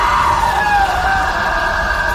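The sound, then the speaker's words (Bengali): A girl's terrified scream in a horror scene: one long, loud, high, sustained wail that holds steady throughout without a break. “আর তারপরে মেয়েটির মুখ থেকে বেরিয়ে আসে এক ভয়াবহ চিৎকার।”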